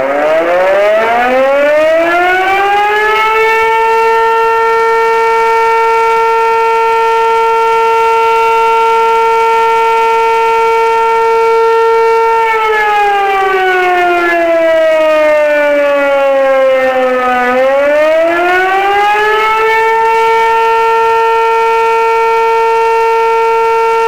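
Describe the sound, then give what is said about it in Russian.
A civil-defence warning siren sounds during an alert-system test, wailing up to a loud, steady pitch and holding it, then sliding down and rising back again. “В проверке также принимают участие со звуковыми сигналами автомобили пожарной части, отдела полиции и поисково-спасательного подразделения.”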